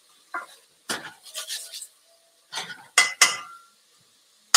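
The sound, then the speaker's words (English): Stirring vegetables in a little oil in a cooking pot: a few short bursts of scraping and clinking from a utensil against the pot, separated by brief quiet gaps. “we've got all the veggies in there, and there's just a little bit of oil in the bottom, so we want to coat everything with the oil and circulate the vegetables.”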